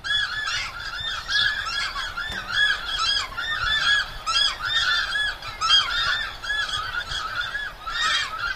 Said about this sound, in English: That's the sound of several pairs of takahē loudly reminding their neighbours that this is their territory.